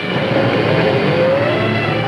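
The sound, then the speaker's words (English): A black sedan drives away, its engine a steady, loud rumble throughout with a faint whine that rises slowly in pitch. “Evans nudges Ernie, and they watch as Ma gets into the black sedan and drives away.”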